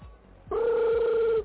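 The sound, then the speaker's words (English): A telephone ringing at a party: one steady electronic ring about a second long, mid-pitched and fairly loud, after a brief quiet lead-in. “get the phone, dude. You get it. It could be anybody.”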